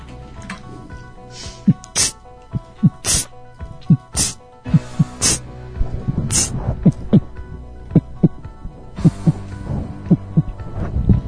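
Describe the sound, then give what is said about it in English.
A person's heart beating, many soft, low, regular thumps in a steady rhythm, broken by several louder, harsher bursts of noise scattered through. “That's my heart beating.”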